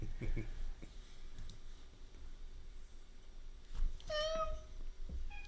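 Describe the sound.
A pet cat gives a single short, high-pitched meow near the end, over quiet background noise broken by a few low, dull thumps.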